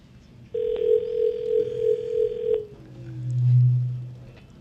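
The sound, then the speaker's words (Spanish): Long-distance telephone ringing tone: one sustained, slightly pulsing electronic ring of about two seconds, clear and loud, followed by a softer, lower tone. “contesta ese teléfono”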